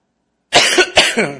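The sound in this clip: A man coughs with something stuck in his throat: a few harsh, rough bursts in quick succession after a moment of silence, loud and alone with no speech.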